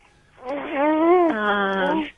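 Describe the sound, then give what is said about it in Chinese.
An infant of about two months cries in one long, loud wail that rises slightly in pitch, then drops lower midway and holds steady before stopping. It is heard alone. “好了，小孩在哭了”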